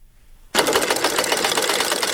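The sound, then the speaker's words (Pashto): A sewing machine kicks on abruptly after a short quiet start and runs in a loud, fast, steady mechanical chatter, as older women sew in a small embroidery class; no voices are heard. “د ګلدوزی په نوم په یوه واړه ټولګي کې ناستې د پاخه عمر ټولې ښځې په دقیق ډول ګنډل کوي.”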